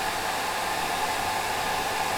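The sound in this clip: Hair dryer blowing while hair is dried: a constant, loud, airy whoosh with a faint whine, unchanging throughout and heard alone without talk.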